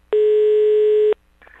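A telephone tone sounds while a call is being placed: one loud, steady, mid-pitched beep lasts about a second and stops abruptly, followed by faint low noise.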